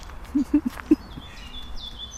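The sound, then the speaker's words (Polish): Birds sing in a forest: a few short, low chirps early on, then faint, high whistled notes over a steady background hiss. “Słucham tylko śpiewu ptaków.”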